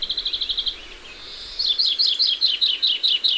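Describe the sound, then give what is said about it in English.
Greenfinch calling in a churchyard: high chirpy notes, then a drawn-out buzzy nasal note, followed by a quick run of many sharp repeated chirps, clear and fairly loud, with no talk. “And in any churchyard, the greenfinch has a nasal zwee”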